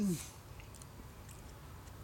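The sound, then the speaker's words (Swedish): Chewing and swallowing of a meatball: soft, faint, wet mouth sounds and small clicks that continue steadily without talk. “Det sista sjöng han sekunden efter det han hade svalt den fjärde köttbullen.”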